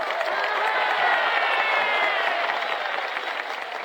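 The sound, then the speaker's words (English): Crowd cheering and applauding in reaction to Martin Luther King Jr.'s speech, a loud, steady roar of many voices and claps that continues without a break throughout. “I mean, I see and hear the audience reaction to him. Yes, Lord, I hear all that.”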